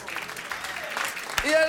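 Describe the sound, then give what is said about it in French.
A brief burst of audience applause for the Paillasson festival, with clapping at a moderate level and a voice coming in near the end. “Donc, c'était le festival Paillasson. Qu'on peut applaudir, s'il vous plaît.”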